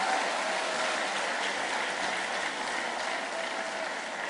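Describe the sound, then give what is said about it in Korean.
Sustained applause from an audience at a church gathering: a dense, even wash of many hands clapping that holds at a steady, moderate level throughout, with no distinct voices. “한박교회 자매님이시 가장 큰 박수로 이렇게 반응하셨습니다. 박수 한 번 더 부탁드리겠습니다.”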